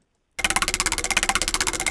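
Rapid, evenly spaced clicking of a prize wheel spun in a game for pizza and cash prizes. A brief silence gives way to a loud, steady run of many sharp ticks, with no voices.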